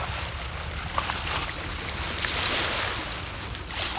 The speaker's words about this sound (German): Da, das Boot, es kommt direkt auf uns zu.